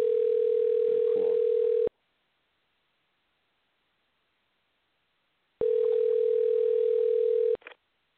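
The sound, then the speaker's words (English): Telephone tone heard while a call is placed to a listener: two steady, humming tone bursts of about two seconds each, separated by nearly four seconds of silence. “We're going to call him right now, so you're going to hear the dialing”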